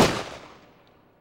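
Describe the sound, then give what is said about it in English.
A single gunshot: one sharp, loud blast at the start, followed by a long reverberant tail that gradually fades away. “Holy fuck, he's gonna shoot again!”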